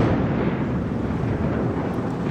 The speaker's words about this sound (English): explosives were used to break down a massive segment of the collapsed Francis Scott Key Bridge, a span that landed on the bow of the stuck container ship Dolly. The controlled demolition will allow the Dolly to be refloated and restore traffic through the port.